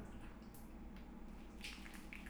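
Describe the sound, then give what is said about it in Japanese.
Soft, wet squishing of soap being lathered by hand in a bath, very faint, with a few light drips. “石鹸をこうして手で泡立てて。”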